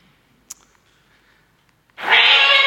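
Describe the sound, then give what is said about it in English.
A cat belonging to a chaplain gives a single loud, drawn-out meow with a bright, nasal tone after near silence. Only a faint click breaks the quiet before it. “So that is McGonagall Grey. McGonagall Grey provides a useful illustration of how moths can cause destructive power. This is McGonagall sitting on the Word of God, showing that she's a chaplain's cat.”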